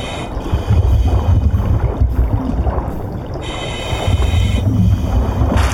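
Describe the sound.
Water sloshing and rushing as a character swims through a flooded cave in a video game, a loud, churning low surge that rises and falls in waves, with a faint steady high tone above it.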